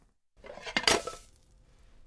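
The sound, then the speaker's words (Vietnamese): Clatter of a frying pan against a plate as an omelette is flipped out of the pan, a brief burst of metallic and ceramic clinks that peaks quickly and then fades to quiet. “Vậy là chỉ cần một động tác nhanh và dứt khoát, chúng ta đã chuyển cái phần trứng từ chảo sang đĩa.”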